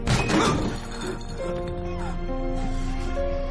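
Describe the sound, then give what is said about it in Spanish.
A hard kick to the face lands in a fight scene from a post-apocalyptic zombie thriller film. A sharp, crashing impact opens the moment, then gives way to sustained tonal score. “Le da una patada en la cara.”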